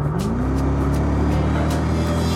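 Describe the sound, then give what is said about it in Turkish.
Engine of a Mercedes-Benz E55 AMG car driving on a flat road, a loud continuous rumble whose pitch climbs briefly at the start and then holds steady. “Mercedes-Benz E55 AMG. Bu arabayı düz yollarda sürüyor.”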